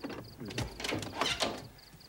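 A door is opened with a creaking, grinding mechanical rattle. It comes in a few scraping surges of moderate loudness and fades out at the end.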